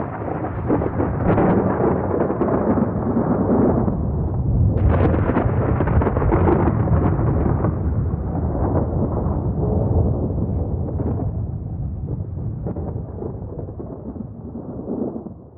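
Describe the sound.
A thunder and lightning sound effect accompanying a devil vanishing in a dramatic stage tale. It is a loud, continuous rumbling roar with crackling bursts that sharpen near the middle, then slowly thins and fades toward the end, with no voices.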